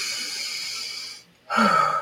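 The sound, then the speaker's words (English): A deep, slow breath drawn and released, heard as a long breathy rush, a brief silent pause, then a second, slightly louder airy breath. No talking. “If you haven't yet today taken a deep breath, I want you to go ahead and do that.”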